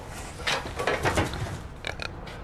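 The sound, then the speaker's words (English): Pigs grunting as a group of seven is let out of their pen, a few low, rough grunts and snorts over a steady background rustle, with no talk. “Come on. Out you go. I've really enjoyed keeping pigs. They've not escaped once.”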